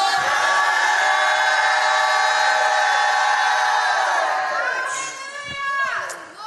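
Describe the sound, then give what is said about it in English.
A church audience shouts in response to the preacher, a loud, sustained wall of raised voices that holds steady for several seconds before thinning and fading toward the end. “I'm going to stop till I hear a shout.”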